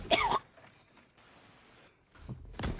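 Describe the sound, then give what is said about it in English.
Throat clearing and coughing from a dry throat: a harsh, loud burst at the start, a quiet stretch, then a second rougher burst near the end. “Don't choke. Sorry, I got a dry patch in my throat.”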